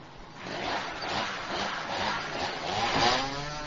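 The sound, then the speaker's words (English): A motorized saw cutting a tree: a continuous rasping, buzzing engine drone that swells and eases slightly in intensity, fairly loud and steady throughout, with no talking. “Would you like to trim this tree now? I'll try. Then you can cut down the next one.”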